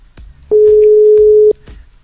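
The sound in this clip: A telephone ringing tone sounds while a call is placed: a single steady beep of about one second, loud and mid-pitched, rising clearly above faint background sounds before and after.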